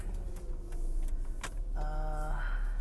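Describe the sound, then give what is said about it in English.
Car driving around town, a steady low engine and road rumble with a few soft clicks, and a short electronic chime-like tone sounding briefly near the end. “I am basically driving around town here.”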